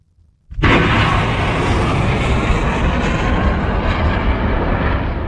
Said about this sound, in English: You can hear the sounds of missiles being fired on the port city of Mocha, where the Iranian-backed Houthis have just taken control.